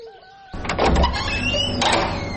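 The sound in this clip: A door is opened at home for an arriving visitor: after a quiet start, a sudden scraping, rattling noise breaks in and carries on steadily to the end.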